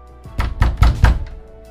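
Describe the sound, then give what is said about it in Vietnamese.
Frantic knocking on a door: a quick, insistent run of heavy, booming thuds, loud and closely spaced, with softer knocks at the start and end. “Người ngoài cửa tựa hồ đã hết kiên trì, bắt đầu điên cuồng gõ cửa.”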